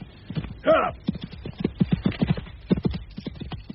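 Horse hooves clip-clop as riders travel along a sidetrack off the main road, a quick, steady rhythm of many hoof beats running throughout.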